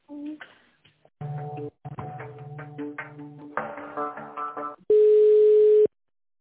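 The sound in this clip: Telephone line sounds while an office call is transferred: a short electronic hold melody of tonal notes, followed by a single loud, steady tone lasting about a second.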